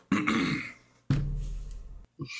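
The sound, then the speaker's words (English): Someone clears their throat: two rough, raspy bursts, each lasting close to a second, separated by a short gap and followed by a brief softer rasp. The sounds are fairly quiet and occur without speech. “I think Sister May clears her throat.”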